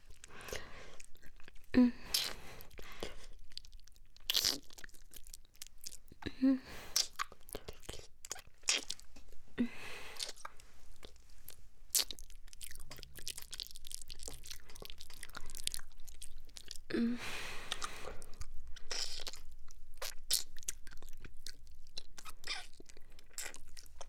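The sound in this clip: ASMR mouth sounds of nibbling and eating an ear: soft wet clicks, smacks and crunchy bites arriving in irregular bursts over a quiet hiss, with no talking.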